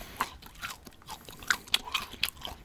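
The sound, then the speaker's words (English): Crunchy chewing of hard-shelled milk chocolate mini eggs: a series of sharp, irregular crunches and bites over soft mouth noises, close and fairly quiet, with no talking. “Got some good ASMR. Good. Everyone, just like, I'm going to release a loop of that if you want to fall asleep to some good smacking.”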